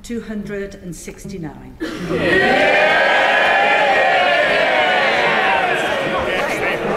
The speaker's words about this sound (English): They're cheering a majority of 18. Why are you cheering?